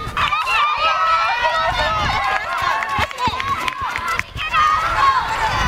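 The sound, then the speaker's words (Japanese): Spectators cheer and call out continuously as children run a school race laps around the grounds, an excited crowd of voices over the running. “最初にグラウンドを一周、その後外回りを何周かして戻ってきます。地域の方も保護者の皆さんも応援に駆けつけています。”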